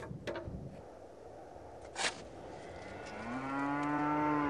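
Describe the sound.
A thin, underfed cow on a drought-hit grassland lets out a long, low moo in the last seconds, steady and droning over a constant background hiss, after a few faint rustles and a brief soft thump earlier.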